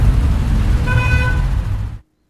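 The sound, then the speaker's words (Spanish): Road traffic rumbles steadily while a single car horn sounds for about half a second midway, then the whole scene cuts off abruptly just before the end. “El tráfico a esta hora.”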